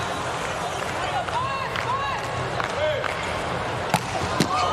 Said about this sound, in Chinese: 这个球发出来了，哈内斯发球直接得分，快到130了，这个发球的时速。